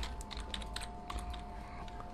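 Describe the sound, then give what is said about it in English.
Typing on a computer keyboard, a quick run of soft, irregular key clicks over a steady low hum, faint and without any talk. “And you're gonna have to hear me type it.”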